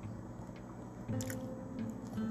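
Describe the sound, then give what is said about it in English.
Someone drinks water, with soft, wet sipping and swallowing sounds that stay faint and close, a few small gulps with no talking. “Hold on. My mouth is dry. I need water.”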